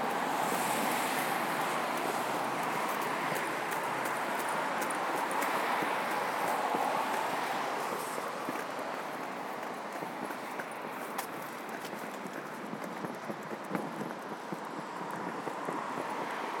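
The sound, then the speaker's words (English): Busy morning traffic on Euston Road, teeming with vehicles: a continuous broad roar, steady and fairly faint, with small clicks and knocks scattered through it. “Not the station, Euston Road, how busy Euston Road would be. And I think I've got my answer. It's really teeming with vehicles.”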